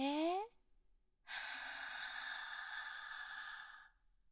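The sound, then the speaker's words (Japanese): A deep, slow inhale during a guided breathing exercise, heard as a steady, soft airy hiss lasting about two and a half seconds, after a brief voiced sound at the start. “じゃあ一緒にちょっと深呼吸してみましょう。私と一緒に合わせてやってみてくださいね。息を吸って、”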